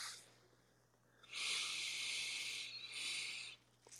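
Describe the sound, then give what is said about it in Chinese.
Slow, soft exhaling breath during a guided breathing exercise in a Reiki class. A faint, airy hiss swells and holds for over a second, pauses briefly, then continues, with a quiet low hum running steadily underneath. “慢的吸气，吐气，再一次吸气，”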